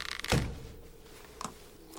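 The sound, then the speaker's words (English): A chest is lifted open with a heavy, muffled thunk, followed about a second later by a fainter knock, heard alone over a low background hum. “lifts open a chest.”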